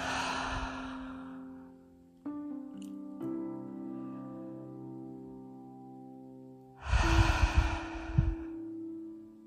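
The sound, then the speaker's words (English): Deep breathing during a guided relaxation exercise: a long breath at the start and a louder one near the end, over a soft, sustained musical drone. “And breathing in deep. Filling up that belly. And then allowing it to deflate.”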